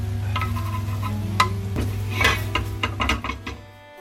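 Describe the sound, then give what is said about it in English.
A utensil scrapes browned bits from a butter pan used to fry onions, making a few sharp scrapes and clinks over a steady low hum that cuts out near the end. “with the butter pan as well, which I fried the onions in. Ah, it smells good. All right, scraping up the brown bits.”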